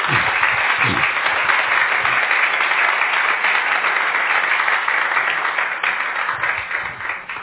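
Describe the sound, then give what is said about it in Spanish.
A church audience applauds with sustained, dense clapping that holds steady for several seconds and then thins slightly toward the end. “¿No le podrías dar un fuerte aplauso al Señor?”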